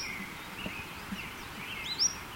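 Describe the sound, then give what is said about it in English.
Faint high bird song notes: a few thin, whistled chirps that slide in pitch, with the last note rising near the end. “those notes are by this bird”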